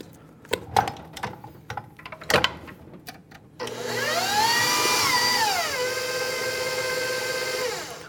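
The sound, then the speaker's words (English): An electric stand mixer mixing batter: a few sharp knocks and scrapes, then the motor starts and runs with a steady whirring drone that climbs briefly in pitch before settling at a lower, even level. “I'm just going to scrape down the sides really well to make sure that we're getting everything incorporated. And then I will return it to the mixer.”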